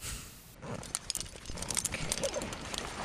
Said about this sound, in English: unloads a 50-pound backpack filled with climbing gear, harness, bundles of heavy rope, and carabiners, which clip things together.